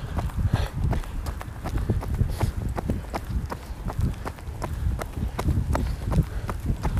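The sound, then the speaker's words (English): Footsteps of a person running in the dark before sunrise: many steady, rhythmic footfalls that thud evenly and continuously at a brisk running pace. “The sun isn't even up yet. I'm kind of running a bit in the dark.”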